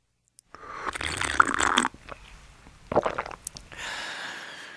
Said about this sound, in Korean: 저희 다시 한번 들려드릴까요? 꿀꺽 소리.